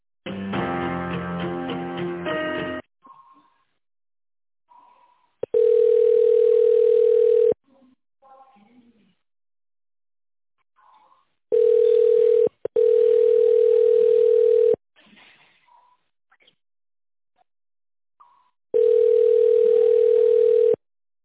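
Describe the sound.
Steady ringback tone sounds in long, evenly spaced bursts while a business phone call is transferred to a specialist. The tone is loud, with silent gaps between the bursts.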